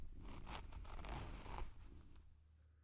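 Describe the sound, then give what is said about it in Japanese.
A trouser zipper being opened makes one continuous, quiet rasping pull lasting under two seconds, then fades out. “ズボンのファスナーを開けて”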